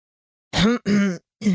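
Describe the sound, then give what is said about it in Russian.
A man coughs in three short, gruff, throaty bursts separated by brief pauses, each rough and clipped, heard alone against silence. “Лишь кашлянул в ответ мужчина.”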